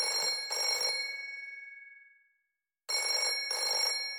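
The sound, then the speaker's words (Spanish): A telephone bell ringing loudly in two rings, each made of two quick bright pulses. The first ring decays into a brief silence before the second starts. “Y el teléfono sonaba.”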